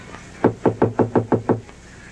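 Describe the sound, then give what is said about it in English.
Knuckles tap seven times on a window above a bed, quick, evenly spaced, hollow knocks in a short regular burst, alone with no voices. “Ram Dass taps on the window over Sarah's bed.”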